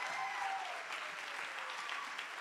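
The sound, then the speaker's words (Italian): Applause from a church audience at a Sunday gathering. Many hands clap in a dense, continuous patter that stays even in loudness throughout, with no voices over it. “vogliamo fare un grosso applauso alla famiglia Arieta”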